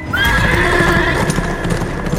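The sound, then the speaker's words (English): A galloping horse pounds out rapid, loud, continuous hoofbeats, and a brief whinny rises near the start of the run. “An hour later, he was galloping north from the city”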